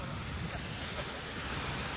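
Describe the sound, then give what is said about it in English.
Sea waves at high tide make a steady, broad hiss of surf, fairly faint and even throughout, with no distinct single breakers standing out. “This is high tide.”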